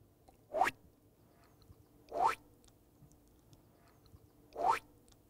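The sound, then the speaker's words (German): Jump sound effect for a stop-motion film starring bread rolls: three faint, springy boings that each swoop quickly upward, spaced about two seconds apart over near silence. “Zum Beispiel die passenden Geräusche. Ganz besonders wichtig, der Sprung.”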